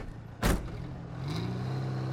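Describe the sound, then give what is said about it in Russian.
A car drives along a road through a pine forest. A short loud thump comes near the start, followed by a steady low engine hum that continues to the end. “Машина едет по дороге через сосновый лес.”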